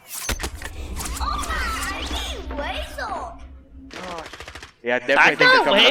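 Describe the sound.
Sniper rifle shots in a video game: a few sharp gunfire cracks mixed with other game sounds, under excited male chatter.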